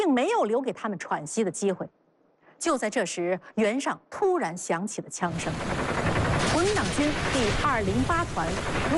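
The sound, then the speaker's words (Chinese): Gunfire breaks out as troops attack a force stranded beside a flooded river: a dense, continuous roar of shots and battle noise begins partway through and keeps going steadily, with a voice talking before it and over it. “就在这时，原上突然响起了枪声”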